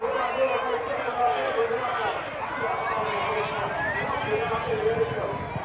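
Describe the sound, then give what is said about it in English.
A crowd at a horse race meeting at York Racecourse makes a steady, dense murmur of many voices. The broad hubbub holds at an even, moderate level from start to finish. “that is the sound of last year's Ebor Festival.”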